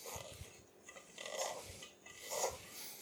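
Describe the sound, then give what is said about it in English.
Shortening and butter are cut into pastry dough with soft, faint rasping scrapes, a few gritty strokes that swell and fade. “Okay, so I'm cutting the fat in, again, shortening and butter.”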